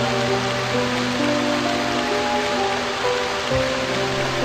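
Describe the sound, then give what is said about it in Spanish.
Steady rain falling, a dense, even hiss that holds at the same loudness throughout, with soft, sustained musical tones underneath. “Empieza a llover”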